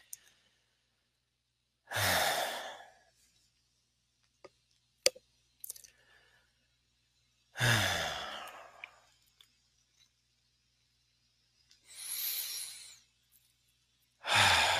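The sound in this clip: Slow, deep breaths during a guided relaxation exercise: four long, airy rushes of breath, each separated by several seconds of near silence, with faint clicks in between.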